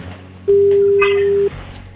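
A single steady ringback tone sounds on a phone call while the caller waits for an answer, one unbroken, mid-pitched beep lasting about a second before cutting off.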